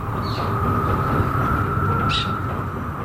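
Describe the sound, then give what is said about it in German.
A train rumbles on the rails at night, a continuous loud low roar with a faint sustained whine above it, holding steady throughout with no talk. “Plötzlich hörte er das Geräusch eines Zuges näher kommen.”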